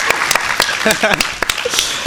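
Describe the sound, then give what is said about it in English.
Audience applause and cheering for restaurant staff at a live event, loud and dense, with voices calling out over the clapping. “Let's just give a round of applause for the people here at Portis who are making this happen for us.”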